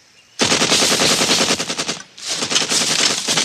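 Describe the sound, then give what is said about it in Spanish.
Machine gun fire in a Vietnam War scene: dense, loud rapid-fire bursts that rattle continuously, break off briefly partway through, then resume just as hard. “¿Por qué diablos dispara?”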